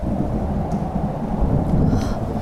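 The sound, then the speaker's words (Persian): Thunder of an approaching storm rolls as a deep, continuous rumble that stays loud and dense from start to end. “داره طوفان میشه، باید برگردیم.”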